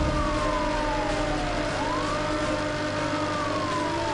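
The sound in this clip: A police car siren in a video game wails steadily and loudly, its tone sliding down and then climbing back up over a constant engine-like rumble.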